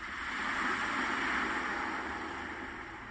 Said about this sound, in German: Drückt man einen der Knöpfe, ertönt Vogelzwitschern oder Wellenrauschen.